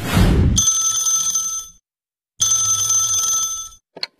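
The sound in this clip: A telephone rings with an incoming call in two long, bright, loud bursts separated by a short silent pause.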